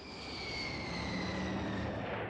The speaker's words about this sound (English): Jack Lynch's mind as his plane taxied to a stop in front of the terminal